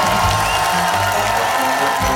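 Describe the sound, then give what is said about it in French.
Crowd applause and cheering as a band is introduced on stage at a concert, a loud, continuous roar of clapping and voices with no pauses. “Veuillez accueillir, sous un tonnerre d'applaudissements...”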